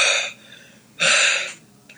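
Heavy breathing from a man: two loud, hissing breaths about a second apart, with a faint third breath near the end.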